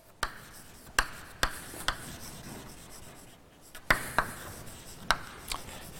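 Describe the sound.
Sharp taps and scraping strokes of writing on a board during a maths lecture, several crisp impacts spread out in two loose groups, with softer rubbing between them.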